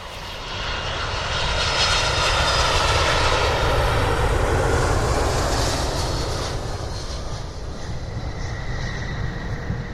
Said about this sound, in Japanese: 皆様、羽田空港に着陸いたしました。